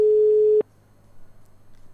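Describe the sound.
Telephone call tone from an unanswered call: one steady, mid-pitched tone holds for about half a second, then cuts off abruptly, leaving a faint low hum.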